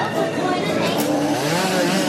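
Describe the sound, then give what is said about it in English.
A chainsaw engine drones steadily for about two seconds, run by someone moving among people, its buzzing harmonic whine mixed with loud chatter of voices. “Sorry, almost got killed by someone with a chainsaw.”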